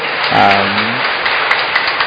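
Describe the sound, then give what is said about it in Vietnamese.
A church audience applauds catechumens who have completed their course. Dense, steady clapping runs throughout, with a brief voice early on. “Chúng ta chúc mừng anh chị đã hoàn tất khóa học và đã tự nguyện, một tràng vỗ tay thật lớn.”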